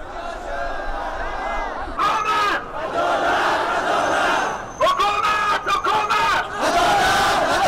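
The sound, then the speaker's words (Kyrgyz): Thousands of Hazara protesters shout for justice in the streets of Kabul, a loud, dense mass of voices chanting in waves with brief dips between surges. “миңдеген хазарлар бүгүн Кабулдун көчөлөрүндө «Адилеттик, адилеттик, бизге адилеттик керек» деп кыйкырып жүрүштү”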